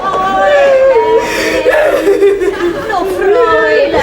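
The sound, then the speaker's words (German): A woman crying in a stage comedy scene, with wavering high-pitched whimpering sobs that rise and fall continuously, loud and close. “Ja, was Sie wollen, also, sie weint ja, ich kann ja keine Tränen sehen.”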